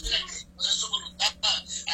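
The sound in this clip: An incoming call rings as an electronic telephone ringtone, several bright, high-pitched bursts in an uneven, warbling pattern, fairly loud over a low steady hum.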